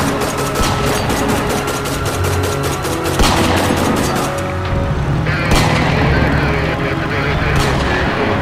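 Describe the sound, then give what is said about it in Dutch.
Gunfire in a police shootout: a dense, rapid burst of many shots for several seconds, then a couple of heavier, louder blasts, all loud and harsh. “Regisseur Huizen schiet terug, maar het mocht niet baten. De dader is gevlucht de schietpartij”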